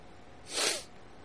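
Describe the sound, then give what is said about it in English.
A single sharp snort through the nose, as of someone snorting bath salts: one brief, breathy hissing burst that rises and fades, fairly faint and alone. “Are you snorting bath salts on the phone right now?”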